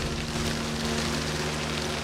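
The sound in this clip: Rain falling outdoors: a continuous, even hiss at moderate level with a faint steady low hum beneath and no voices.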